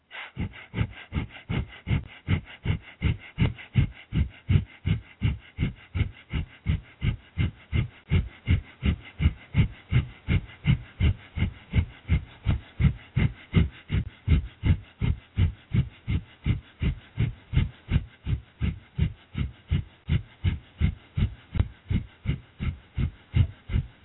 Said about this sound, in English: Remember that the breath is not taken in very deep, and the pace is fast, about 3 cycles per second. Breath of fire sounds like this.